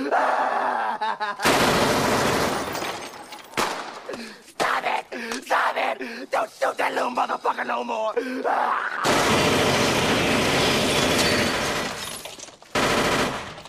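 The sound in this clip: Loud gunshots in a tense armed standoff: rapid bursts of automatic fire with sharp single shots between them, dense and sustained, with a brief gap before more heavy firing.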